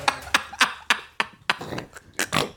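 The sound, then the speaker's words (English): Snorting noises come as a quick series of short, breathy nasal bursts, each sharp at the onset and fading fast, loud against near silence with no talk. “What the fuck kind of noises are going on right now? We got snorting. We got whatever that was.”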